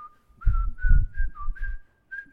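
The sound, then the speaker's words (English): A person whistles a Christmas tune: a short run of clear, fairly high notes at a mostly even pitch with one brief dip, phrased in separate bursts with small pauses between them. “You see, I had been whistling,”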